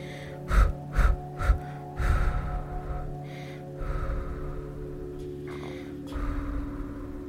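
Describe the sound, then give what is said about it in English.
Pulsing breaths from a relaxation breathing exercise: three quick, sharp bursts of breath in a steady rhythm, followed by a few longer, drawn-out breaths with pauses between them, with no talking. “Okay, so that's called the pulsing breath techniques.”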